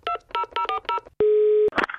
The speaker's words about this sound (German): Wir rufen sie einfach mal an.